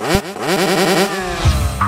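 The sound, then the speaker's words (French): A Ducati L-twin, two-cylinder motorcycle engine rated at 95 horsepower runs with a loud, rich harmonic drone whose pitch wavers, and no talk over it. “Le moteur, c'est la grande expérience Ducati, avec un bicylindre en L qui développe 95 chevaux.”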